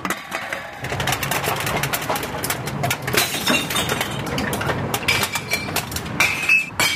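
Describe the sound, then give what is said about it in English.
Glass bottles and metal cans clatter into recycling bins near an office building, a dense, loud run of clinks, crashes and shattering glass that starts after a brief quiet moment and continues without pause. “That's the sound of people recycling their bottles and cans near my office building.”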